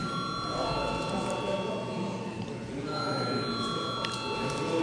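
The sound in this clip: A parliamentary voting bell rings in the chamber as one steady, continuous electric tone that holds throughout, over a dense background murmur of voices.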